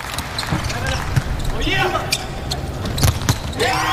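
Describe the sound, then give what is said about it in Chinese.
During a volleyball match, a setter serves the ball. A few sharp ball impacts stand out over steady crowd noise and voices. “对方的十七号二传手齐默慢来发球”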